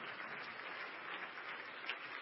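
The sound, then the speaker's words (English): Congregation applause at a church worship service, hands clapping in praise in a dense, steady, even wash of claps that holds at one level throughout with no talk over it. “Let's stand across the building tonight and make him feel welcome. Let's give the Lord a hand clap of praise.”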